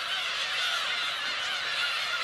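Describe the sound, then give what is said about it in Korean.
A colony of black-tailed gulls calls on Gujido island. The dense, unbroken chorus of many overlapping, harsh calls stays steady and loud throughout, with no talk. “세상에 이런 곳이 있었군요. 구지도의 주인은 괭이 갈매기였습니다.”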